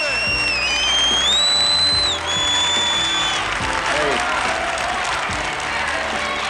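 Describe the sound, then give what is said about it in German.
Applause and cheering from a boxing crowd at Madison Square Garden: dense, steady clapping that lasts the whole clip, with high whistles ringing out during the first few seconds. “Sie hören sich wie ein Boxpublikum an.”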